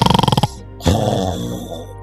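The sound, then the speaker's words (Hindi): Snoring from the tehsildar sahib asleep: a rapid rattling run of nasal pulses, a brief pause, then a longer, rough, rasping breath that trails off. “कमली के बाबू, नींद में तहसीलदार साहब की नाक बहुत बोलती है।”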